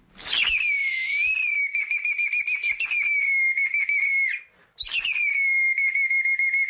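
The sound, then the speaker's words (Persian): A clay toy whistle imitates a nightingale's song: bright, high, warbling trills that run almost unbroken, pause briefly, then start again loudly. “نه، چنین نیست. این صدای عجوبه است. عجوبه نیست، پرنده نیست، بلکه بازیچه هوشتکشی است که از گل ساخته شده”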